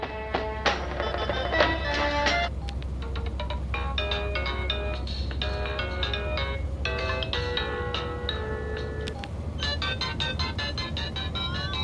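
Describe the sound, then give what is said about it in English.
Mobile phone ringtones are tried out one after another in a moving car, a steady stream of bright electronic melodies and quick beeping notes that keep changing tune over a constant low rumble, with no talk. “Mr. Bean bobs his head around as he tries out the ringtones on Sabine's phone.”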